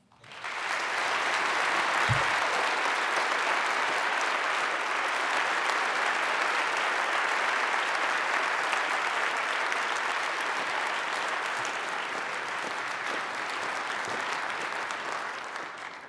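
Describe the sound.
An audience applauds to welcome a speaker at the Westminster Town Hall Forum, with loud, dense, steady clapping that starts abruptly and holds for about sixteen seconds.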